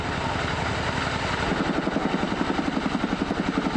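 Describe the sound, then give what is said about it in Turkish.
Helicopter rotor noise from a CH-47 Chinook that drops up to 10 tons of water on a wildfire: a loud, steady roar that soon settles into a rapid, regular thumping beat of blade pulses. “bir kere de 10 tona kadar su atabilen CH-47 Çinok tipi helikopter de yangın söndürmek için desteğe geldi.”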